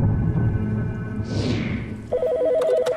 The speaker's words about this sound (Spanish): Y todo empezó con una llamada al 911.